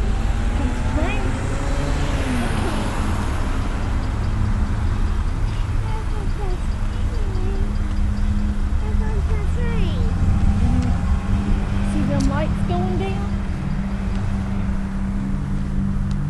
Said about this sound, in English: Ooh, another train.